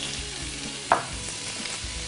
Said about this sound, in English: The first thing we're gonna do is we're gonna add just a little oil to our pan and our bacon.